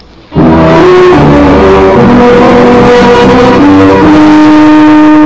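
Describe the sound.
A car engine pulls away from a ranch, bursting in loud and staying strong throughout, its steady droning tone stepping to new pitches as it goes, with no fade.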